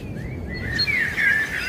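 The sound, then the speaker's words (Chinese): Great tit chirping: thin, high whistled calls and a brief warbling phrase, moderately loud over a steady low background rumble, with no voices. “雌性大山雀这一次成功阻止了事态进一步恶化，它迅速弥补了损失，终于完成了筑巢。现在它已经准备好产卵”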